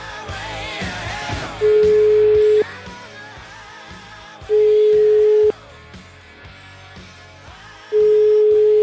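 Ringing tone of an outgoing telephone call: three steady, single-pitched tones of about one second each at regular intervals, heard over a continuous background sound bed.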